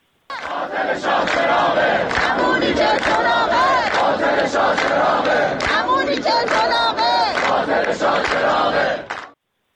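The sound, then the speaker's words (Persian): Engineering students at Tehran University chanting protest slogans: a large crowd shouts in rhythmic unison, loud and continuous for about nine seconds before stopping abruptly. “دانشجویان دانشکده فنی دانشگاه تهران هم از جمله با سر دادن شعار شاه چراغ رکس دیگه است، اینم یه نیرنگ دیگه است، به تجمعات اعتراضی خودشون ادامه دادن. صدای دانشجویان دانشکده فنی تهران رو هم بشنوید.”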